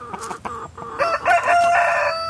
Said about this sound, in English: She has a small garden, some chickens,